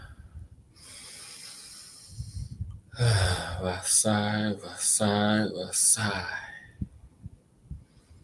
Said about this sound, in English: So you feel this energy, and everyone taking a nice big deep breath.